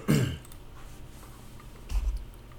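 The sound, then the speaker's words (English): Throat clearing into a microphone: a short, harsh rasp at the very start, then near quiet, with a second, softer low rumble close to the end. “Sorry, I just cleared my throat in the microphone.”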